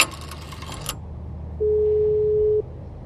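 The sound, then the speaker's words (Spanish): A telephone handset is lifted with a short burst of clattering noise, then after a pause a steady, single-pitched line tone sounds alone for about a second before cutting off. “Descuelgo el teléfono y empiezo a marcar el número.”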